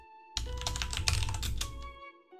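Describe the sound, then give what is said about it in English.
Rapid typing on a computer keyboard: a dense, steady run of fast key clicks lasting under two seconds, starting abruptly and stopping just as suddenly, with no talk. “Give me 1 second. I am typing them all out.”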